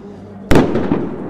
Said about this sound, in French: Voilà, on tire les lacrymos.